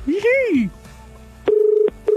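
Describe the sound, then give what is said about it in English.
Telephone call tones after a brief opening sound: two short, steady mid-pitched beeps separated by a small gap, loud and clean. “then I do this and hopefully get someone to answer the phone.”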